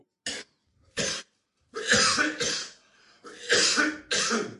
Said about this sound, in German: Ich übersteuere, wenn ich huste.